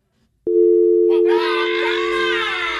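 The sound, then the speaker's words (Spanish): A steady, continuous telephone dial tone after a call is cut off, starting abruptly and holding one even pitch; about a second later a loud voice cries out over it while the tone carries on. “Contra, se le cortó la llamada.”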